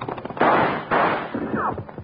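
Gunshots in a Wild Bill Hickok western radio drama: two loud cracks with lingering tails, then softer pops and a short falling whine.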